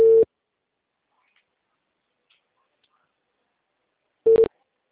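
Busy tone after a dropped phone call: two short, mid-pitched electronic beeps, one at the start and one near the end, separated by several seconds of silence.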